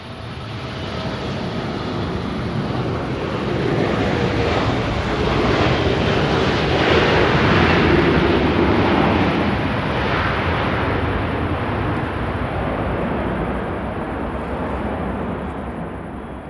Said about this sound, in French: je vois les phares des avions arriver. Et puis j'entends atterrir, je prends une bonne dose de kérosène et je vois déjà le suivant.